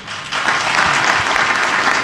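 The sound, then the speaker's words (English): An audience breaks into applause, a dense, loud burst of clapping that starts suddenly and holds steady at an even level with no voices on top. “Yeah, he should have got applause.”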